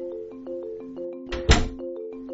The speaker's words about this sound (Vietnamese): Cô đóng cửa lại, tiện tay chốt luôn anh ta trong phẫn nộ gào thét ở trong đó.